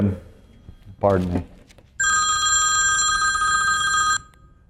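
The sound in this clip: A telephone rings during a church sermon, with a loud, steady, bright electronic trill of about two seconds that starts right after a brief bit of speech and then cuts off.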